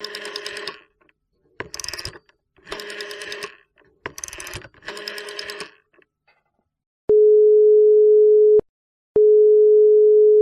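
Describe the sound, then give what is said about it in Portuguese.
A jingle of telephone-style sounds: several bursts of buzzy ringing, a short silence, then a steady pure tone that breaks once and resumes, loud and with no talk. “Então roda a vinheta”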